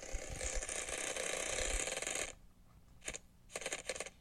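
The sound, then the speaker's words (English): A prize wheel spins with a fast, continuous ratcheting clatter that cuts off abruptly, followed by a few scattered clicks, all faint. “We are going to give the wheel a spin and hopefully it will be a little kinder.”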